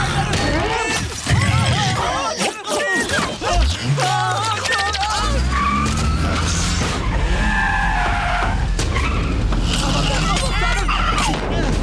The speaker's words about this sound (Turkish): Arabaya düz kontak yapabiliyor musun? Bu harika. Sür geldi sayılır, geldi sayılır. Hadi. Geri sür şunu.